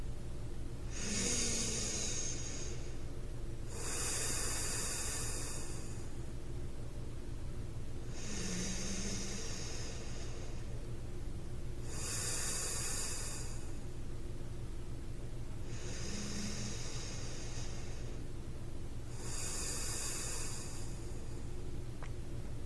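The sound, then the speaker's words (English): Three slow, deep breaths, each an airy inhale followed by a longer exhale, evenly spaced and unhurried over a steady low hum. “Time to snuggle into bed and let your eyes softly close. Let's take 3 deep breaths together.”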